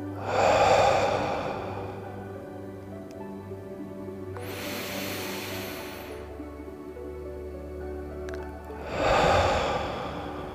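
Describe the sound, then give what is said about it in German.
Slow, deep breathing, in through the nose and out through the mouth: a full nasal inhale, a long airy hissing exhale, then another inhale, over a soft steady background drone. “Ein durch die Nase, aus durch den Mund.”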